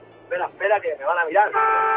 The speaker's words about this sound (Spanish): A ver, dale al claxon, que yo sepa el camión que llevas.